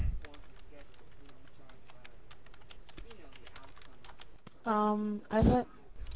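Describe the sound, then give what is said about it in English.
Fingers type rapidly on a computer keyboard, producing a dense, even run of light clicks for several seconds before a voice breaks in briefly at the end. “I'll type that in the text chat.”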